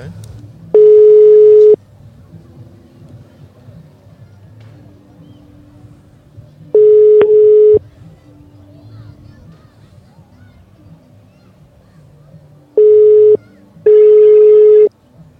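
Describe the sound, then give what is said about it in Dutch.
A telephone ringing tone plays while a call is placed: four steady mid-pitched tones. The first two are long and widely spaced, and the last two come close together, with soft background noise between them. “Dus laten we haar even bellen.”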